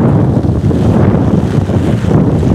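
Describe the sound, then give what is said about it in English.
Strong outdoor wind buffets the microphone with a loud, continuous low roar and rough gusting texture. Its strength shifts slightly but never stops. “Oh, I love the wind. It sounds so fun and refreshing.”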